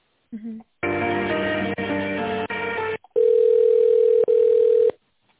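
Telephone line tones during a call transfer: a brief blip, then a buzzy multi-tone stretch broken by short gaps, followed by a steady single-pitched tone with one brief break, all thin and band-limited like a phone line.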